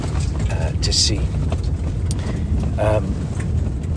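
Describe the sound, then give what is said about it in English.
A four-wheel drive vehicle driving across open desert toward the Empty Quarter, heard as a steady loud engine and road rumble with mechanical rattling throughout, while a voice speaks briefly over it. “I'm sitting, the noise you can hear is because we're now totally vehicle based.”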